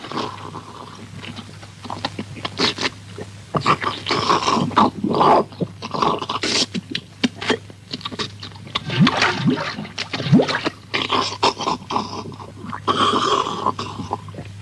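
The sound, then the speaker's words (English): Someone drinks coffee, giving a scattered series of wet sips, slurps and swallows over a steady low hum. “If you just excuse me while I have a drink of coffee.”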